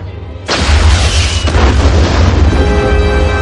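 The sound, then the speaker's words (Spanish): A loud explosion from an impact destroys the remains of an armored vehicle in an action film. One sharp, sudden blast gives way to a long, dense roaring rumble that slowly thins out. “nuevo impacto destruye los restos de la tanqueta.”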